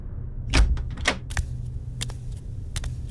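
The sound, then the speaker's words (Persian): A door opening in a room, heard as a few sharp clicks and knocks over a low, steady hum, with no voices. “همش توی اتاق راه میرفتم تا اینکه صدای باز شدن در اومد.”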